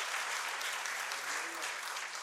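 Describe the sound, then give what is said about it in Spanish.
A church audience applauding: dense, continuous clapping from many hands holds at an even level throughout, with no breaks. “Apláudale si va a aplaudirle al Señor.”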